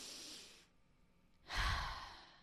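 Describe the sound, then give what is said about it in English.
A deep breath drawn in with a soft, airy hiss, a brief pause, then a fuller, louder exhale that slowly fades, with no talking. “Let's breathe in what was in alignment for us this week and breathe out what was out of alignment.”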